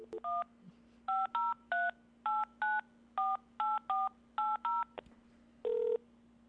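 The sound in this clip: Telephone keypad tones dial into a landline voicemail: many short, clean beeps of varying pitch in an uneven sequence, ending with one longer tone. A steady low hum runs underneath throughout.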